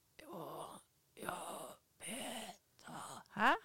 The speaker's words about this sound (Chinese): 我刚本来以为只有呼吸 对他就呼吸声很大这样子